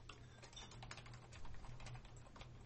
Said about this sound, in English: Yeah, type that in, virtual twinning.